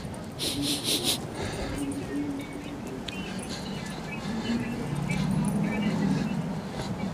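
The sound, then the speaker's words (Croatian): Dogs bark out on the streets, a short cluster of sharp barks at the start, then quieter yelps and whines mixed with voices and a steady background rumble. “Psi na sve strane.”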